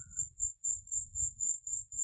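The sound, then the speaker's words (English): Crickets chirp in a tree in a thin, high trill that pulses in a steady, even rhythm. The chirping is faint and heard alone over soft low rumbling. “Many crickets. There's a cicada or a locust in this tree that goes off every so often.”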